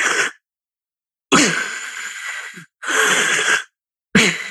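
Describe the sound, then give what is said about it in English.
A voice imitates the choking breath of sleep apnea with several loud, raspy, breathy bursts. Each burst is separated by a short silence. “Sleep apnea is when you choke on yourself. You asphyxiate yourself on your own body. And it sounds like this.”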